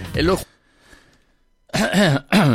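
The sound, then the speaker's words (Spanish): One faint, short cough sits in a pause between stretches of speech, soft and brief against the louder talking on either side. “Bueno, está brava la tos. Está brava la tos.”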